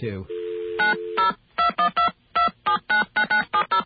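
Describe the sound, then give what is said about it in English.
Touch-tone telephone dialing of 0 plus a New York City area code to reach an operator: a steady dial tone, then a quick run of many short, evenly spaced, clear beeping tones. “we're going to call an operator now. Yeah, I think when you're getting operator assistance into New York City, you have to dial 0 plus”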